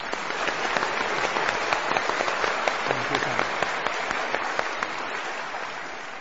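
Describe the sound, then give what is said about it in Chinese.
Congregation in a church applauding, a thick, continuous patter of many hands clapping at once, with occasional sharper individual claps poking through the even wash. “现在要为耶稣基督鼓掌了。”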